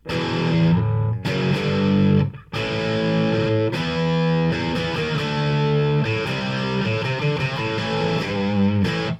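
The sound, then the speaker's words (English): Overdriven electric guitar played through a Soldano amplifier, heavily distorted chords and notes ringing loud and sustained, with a brief break after about two seconds before the playing resumes. “And then I have that Soldano on the fourth amp, which sounds like this.”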